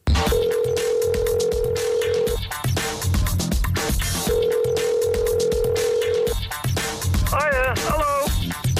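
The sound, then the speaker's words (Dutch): A telephone rings in a radio drama: two long, steady electronic rings of about two seconds each, separated by a pause, over other background sounds. “Ja, en dan belt hij nog eens een keertje op het moment dat ze dat feestje geeft.”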